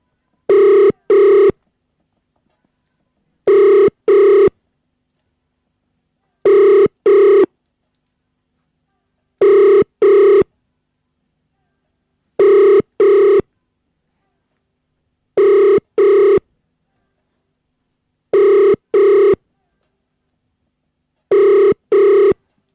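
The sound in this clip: A telephone rings unanswered, eight evenly spaced double rings repeating in a steady pattern, loud and alone with no voices between them.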